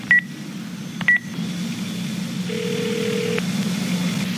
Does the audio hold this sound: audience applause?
no